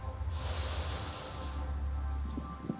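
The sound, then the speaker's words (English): A slow, deep inhale through the nose during a guided breathing exercise, a soft airy hiss of about a second over a steady low hum. “Let's take a deep breath in our nose”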